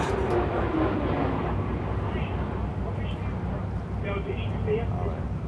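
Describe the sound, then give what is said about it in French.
An airplane passes overhead, a low, steady rumble that stays under people talking for the whole stretch. “Donc ça, c'est un avion qui passe.”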